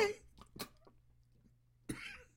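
Quiet coughing from someone who swallowed grape juice the wrong way: a few short, rough coughs separated by a brief pause.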